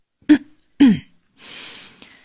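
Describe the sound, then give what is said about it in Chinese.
Someone clears their throat with two short, sharp rasping bursts, then lets out a softer breathy exhale that ends in a small click. “刘贤空清了清嗓子向丁月问道”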